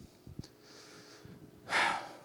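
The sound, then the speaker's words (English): A person taking a breath: a single loud, airy inhale near the end, rising sharply and fading, after a few faint clicks and soft breathy sounds. “That's taking a breath.”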